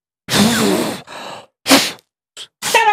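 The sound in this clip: A magician blows a few breathy puffs during a vanishing-ball trick. The short, airy bursts come one after another with gaps of silence, and some carry a faint voiced tone.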